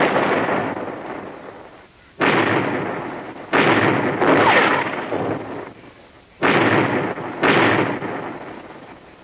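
Cannon fire from a ship's broadside in a sea battle: several loud, heavy booming blasts, spaced mostly in pairs, each followed by a long rumbling decay, with no talk.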